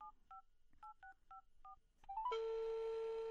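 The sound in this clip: Telephone keypad tones as a number is dialed: a quick series of short dual-tone beeps, then a few brief rising tones and a longer, louder steady tone that ends abruptly.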